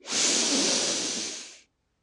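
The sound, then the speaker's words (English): One long, deep breath: a steady, airy hiss lasts about a second and a half, then cuts off to silence. “Taking another deep breath.”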